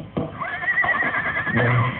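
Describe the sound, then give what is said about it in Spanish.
A horse neighs in one long, high, quavering whinny among restless horses, with a few low thuds and shuffles of hooves around it. “Con un relincho. Y creí que se trataba de una risa.”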